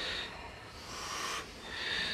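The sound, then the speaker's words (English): Deep breathing during an arm-stretching exercise, with a few slow, airy inhales and exhales. Each breath is a soft, hissing rush of air separated by short quiet gaps. “We're going to take a deep inhale here. And as you exhale, you're going to push your hands straight out. Inhale, exhale.”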